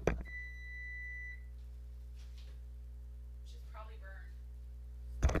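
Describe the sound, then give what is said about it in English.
A kitchen oven alarm rings while chicken tenders cook. It gives one steady, high electronic tone lasting about a second over a constant low hum, and a voice follows briefly after a quiet stretch. “Well, there's the alarm. One sec. Got to take my headset off.”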